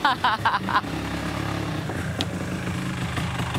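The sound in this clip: A 1970s Vespa scooter rides in with a steady, buzzing small-engine drone that holds an even level throughout, while voices are heard over the first second.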